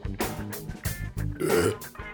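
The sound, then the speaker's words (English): A burp, one brief, low, throaty belch, comes amid other soft vocal noises. “did you just burp? I did. I didn't mean to.”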